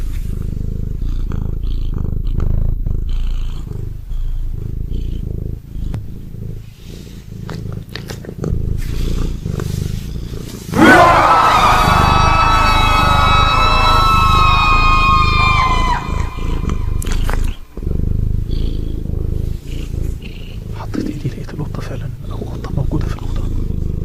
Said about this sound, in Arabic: لحد ما إيدي جت على شعر، شعر ناعم وصوت قطة بتتنفس جوه في الأوضة معايا.